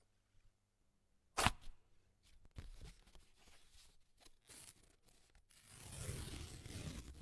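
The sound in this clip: An envelope torn open: one sharp rip of paper, then soft crinkling and rustling that builds into a longer papery scrape, all fairly faint.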